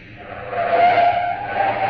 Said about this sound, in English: a joint on Sunset Strip, The car jock gunned my old sports car up to the curb.